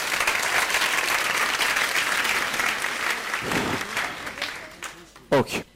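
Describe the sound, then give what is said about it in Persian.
Audience applause in a lecture hall after a motivational talk, a dense, steady wash of clapping that thins and fades over the last second, ending with a brief voice. “باریکالله ماشالله دست بزنید خدا خودتون.”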